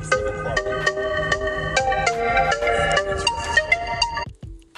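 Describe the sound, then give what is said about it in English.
A phone ringtone from an incoming call plays a bright, repeating melody of electronic notes at a steady, loud level, with no talk. It cuts off just before the end. “I was interrupted by a phone call.”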